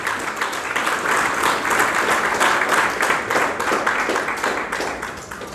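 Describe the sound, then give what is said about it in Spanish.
Loud, sustained applause from a church audience praising the Lord, a dense, even wash of many clapping hands that continues without a break. “Esa palma tan fuerte para el Señor.”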